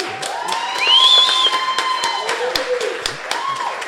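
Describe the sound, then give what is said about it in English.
Applause and cheering from a live audience at a show in downtown Westchester: scattered claps with a brief high whoop or whistle early on, moderately loud, fading slightly toward the end. “And it's a round of applause.”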